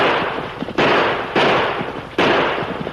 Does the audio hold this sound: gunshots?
yes